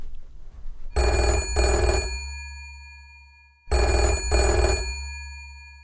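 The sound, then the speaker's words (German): A telephone rings out in two bright, buzzing double-pulse rings separated by a clear pause. A low steady hum runs underneath, and no one speaks. “Unser Mentor ruft an. Ich gehe mal ran, okay?”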